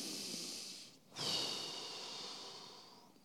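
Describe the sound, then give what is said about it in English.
A group of people breathe together, drawing in through the lungs and releasing through the mouth as one soft, broad, airy whoosh that swells and then slowly tapers over about two seconds, faint overall. “I want you to breathe in with your lungs and breathe out of your mouth.”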